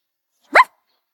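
A single short puppy bark, a high yip that rises and then falls in pitch, heard alone against silence.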